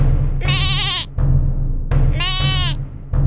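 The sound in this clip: A goat bleats twice, loud and wavering, each cry lasting about half a second to a second, with a short gap between them.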